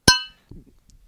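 A single bright clink of glasses in a toast rings out sharply and fades within a fraction of a second, followed by a soft low rustle.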